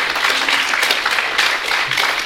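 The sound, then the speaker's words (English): Applause at a kirtan during a morning program: a dense, steady patter of many hands clapping that carries on loudly and without a break from start to finish. “And I was thinking that, yes, a round of applause.”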